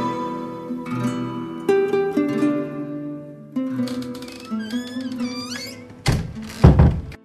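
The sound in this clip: A door is opened with a couple of heavy wooden thuds near the end, low and loud over a tonal musical background.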